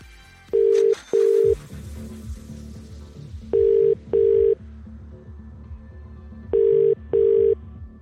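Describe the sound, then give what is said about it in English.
A telephone ringback tone sounds while a number is called: three double rings, each a pair of short, steady, mid-pitched buzzes, with pauses between them. “This number has been selected. The person needs to answer within five rings. So let's do this. Let's dial the number.”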